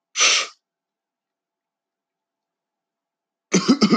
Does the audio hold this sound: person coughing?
yes

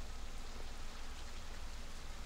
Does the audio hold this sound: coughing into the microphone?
no

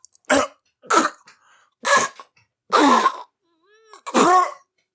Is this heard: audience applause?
no

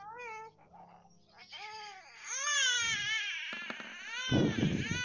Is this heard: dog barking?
no

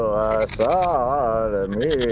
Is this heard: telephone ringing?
no

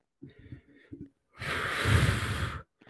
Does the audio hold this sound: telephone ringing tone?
no

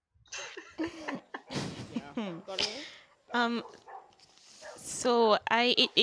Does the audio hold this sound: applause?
no

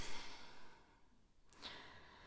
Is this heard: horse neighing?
no

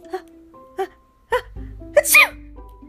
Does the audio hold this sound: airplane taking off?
no

